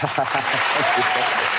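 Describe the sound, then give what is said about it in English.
Audience clapping: a steady wash of applause runs throughout while a voice talks over it. “See, I told you they like him. Everybody's clapping because you're too smart not to know that, and they're all clapping for him.”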